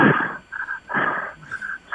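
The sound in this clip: A voice imitating heavy breathing: a few rhythmic, raspy in-and-out breaths with a wheezy, huffing texture, loud and alone.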